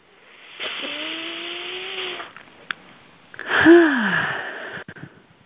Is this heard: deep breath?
yes